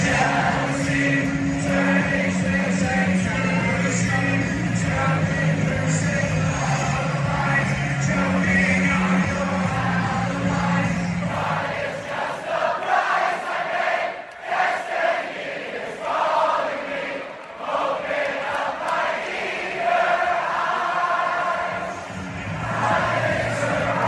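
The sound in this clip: Students sing together in a large crowd at a University of Michigan football game. Many voices blend into a loud, sustained chant that carries on unbroken, with a low droning accompaniment beneath them for the first half.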